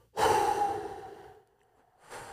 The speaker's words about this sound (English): Hold it, and then with two outward breaths from your mouth like this,